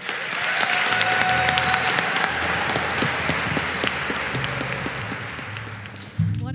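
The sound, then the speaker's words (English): A chapel audience claps to welcome a guest speaker. The applause is dense and sustained throughout, easing slightly toward the end. “So would you join me in giving her a warm Raider welcome?”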